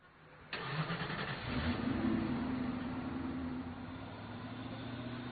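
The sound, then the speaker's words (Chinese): A luxury sports car's engine starts abruptly after a brief quiet moment, swelling into a short rev before easing back into a steady, low idle drone that holds to the end. “所以当沈晨迎着寻墨并不友善的目光将他请进豪华跑车的时候”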